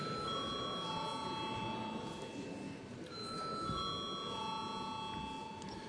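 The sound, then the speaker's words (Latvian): An electronic bell rings in a parliament chamber before a vote. It gives loud, steady, sustained tones in two long stretches with a short break between them, and a faint murmur sits underneath. “Paldies, lūdzu zvanu.”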